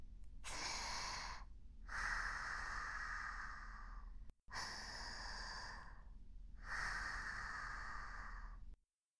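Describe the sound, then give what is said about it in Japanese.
Deep breathing: two long breath cycles, each a shorter draw of air followed by a longer, steady rush of breath, loud and alone with no talk. “そんな時は深呼吸。”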